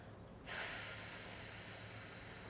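A slow exhale during a guided breathing exercise: a soft, steady airy hiss starts abruptly after a short quiet moment and carries on gently to the end.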